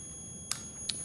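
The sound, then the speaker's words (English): A diamond tester beeps while checking a small diamond set in a gold ring. Two short, high-pitched electronic beeps sound about half a second apart over a faint, steady whine. “See, it beeps when it's a diamond.”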